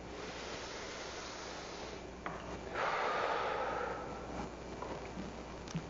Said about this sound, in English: I want everyone to take a big, deep breath. Let's do that again.